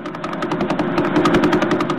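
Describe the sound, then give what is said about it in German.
The Vela pulsar's signal, rendered as sound, gives a steady, rapid pulsing buzz of about eleven beats per second over a low hum, resembling an idling engine. “Was Sie hier gehört haben, ist ein sogenannter Pulsar. Er befindet sich im Zentrum der Vela Supernova und entstand aus einem sehr massereichen Stern, der vor etwa 10.000 Jahren explodierte.”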